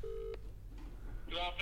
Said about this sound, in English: Let's dial him in now.